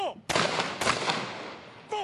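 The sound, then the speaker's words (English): Rifle salute fired by a police guard unit at a memorial ceremony: two sharp, loud volleys of gunfire, each cracking out suddenly and then trailing off in a rolling, fading decay. “A police rifle guard unit fired a salute, followed by 2 minutes of silence.”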